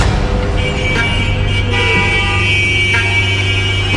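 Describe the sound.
Car horns honk in a stalled morning traffic jam, several sustained toots of different pitches overlapping and sounding repeatedly above a steady, loud rumble of idling traffic.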